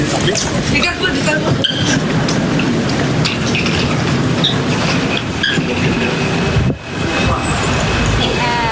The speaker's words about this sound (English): that was that was Dennis Rodman just landing at Singapore's airport there.